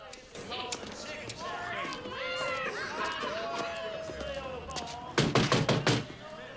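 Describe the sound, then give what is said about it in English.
Knocking on a residential apartment door: a quick, loud series of sharp raps near the end follows a stretch of busy background sound. “knocks on one of the doors.”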